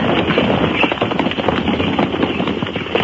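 Hoofbeats of Spanish dragoons' horses riding up to Pike's tiny frontier fort in February 1807 form a dense, loud, continuous clatter with no clear gaps.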